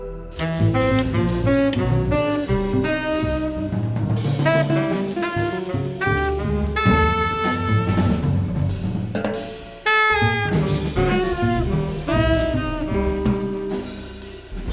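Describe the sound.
European jazz led by a Danish guitarist, with melodic guitar lines over a full band accompaniment that plays continuously and steadily, with a brief dip before it resumes.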